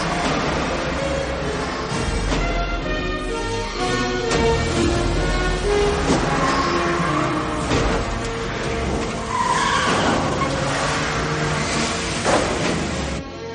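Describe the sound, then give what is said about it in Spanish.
Police vans and patrol cars drive through heavy rain, a steady, loud, unbroken roar of engines and tyres on wet road that lasts the whole stretch without pause. “Se montan en varios furgones policiales y patrullas y se dirigen al domicilio del sospechoso.”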